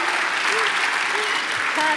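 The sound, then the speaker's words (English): A church audience claps in dense, steady applause, with a few voices calling out over the clapping. “Stand to your feet. Stand to your feet. Put your hand together. Come on. Put your hand together.”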